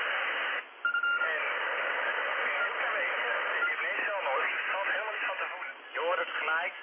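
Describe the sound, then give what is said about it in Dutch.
Amateur radio repeater signal with interference, its narrow, band-limited hiss carrying muffled voices that come and go under the noise, with a brief dropout near the start. “dit is die repeater van Vrooms Hoop weer. Die zit ja, net onder de 700”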